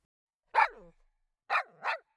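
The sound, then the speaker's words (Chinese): A big dog barks three times: one bark, a pause of about a second, then two quick barks close together. The barks are fairly loud and clear, with silence around them. “哇，好可爱的大狗狗，人家来喂狗狗吃零食”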